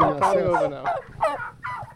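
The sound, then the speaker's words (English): A flock of turkeys gobbles in loud, rattling bursts that overlap and repeat in quick succession, with many calls sounding one after another and no voices. “The turkeys stay together in a flock and learn from each other. One of them will figure out where the water is and then the rest follow. If one of them finds a hole in the fence, then they all find it. I think they're following us.”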